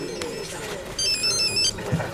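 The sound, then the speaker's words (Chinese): A phone rings with a short, high electronic warble that lasts under a second over a faint, low background hum. “哦，是我的电话响了吗？”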